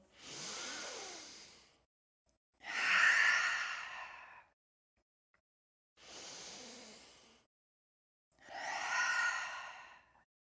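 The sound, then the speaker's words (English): Deep breaths in and out during a seated guided meditation. Four long, airy breath sounds form two full inhale-exhale cycles, separated by silent pauses. “Let's take a deep breath overhead if you'd like. Bring hands to heart, exhale. If you want to do that two more times, feel free to join me.”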